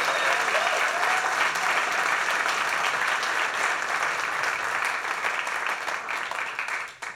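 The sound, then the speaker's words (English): Audience applause for a band after its performance: dense, loud, even clapping from many hands that holds steady throughout, then thins and drops away at the very end. “Give it up for that great band.”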